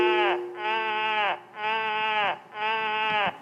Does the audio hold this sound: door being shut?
no